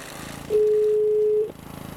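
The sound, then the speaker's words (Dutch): A telephone call ringing out as one long, steady, even-pitched tone lasting about a second, set over a low, pulsing background buzz. “Ga bellen met Willem Delvaux.”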